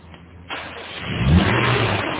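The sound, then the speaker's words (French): A rental car that is not very clean starts at once. After a quiet moment, its engine catches with an abrupt jump in sound, then the revs climb and the motor holds a loud, steady roar. “Je vais vous prêter une autre voiture, une voiture de location qui vient de rentrer. Mmh. Elle n'est pas très propre, mais ça vous dépannera. Celle-là démarre au quart de tour.”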